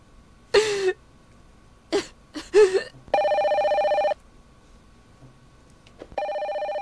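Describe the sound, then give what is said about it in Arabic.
Telephone bell ringing in two long, evenly pulsing electronic bursts, preceded by a few coughs and throat clearing. “ردي رد علي، يلا ارفعي سماعه التليفون، ردي رد علي”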